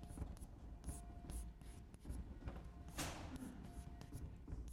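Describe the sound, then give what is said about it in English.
Scratchy strokes of writing on a board during a lecture, many quick irregular scrapes in a steady run with no talk over them. “I'm just writing down the same definition as we had before”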